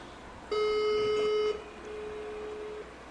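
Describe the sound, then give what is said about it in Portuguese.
Phone ringback tones sound from a call placed over WhatsApp and as a regular call at the same time: a louder, steady, buzzy beep lasting about a second, then a fainter, smoother tone of similar length. “Ó, os dois estão chamando, esse daqui também tá chamando.”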